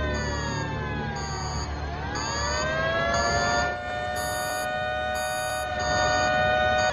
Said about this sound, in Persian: زنگ خطر زیرزمینی.